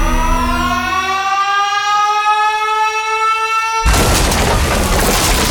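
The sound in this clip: An explosion sound effect: a wailing siren tone slides lower, then a sudden, loud, roaring blast takes over and keeps rumbling to the end.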